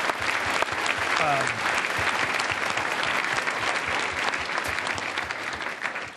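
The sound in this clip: Audience applause at a Climate One event, a dense, steady roar of many hands clapping that holds loud for about six seconds before easing slightly at the end.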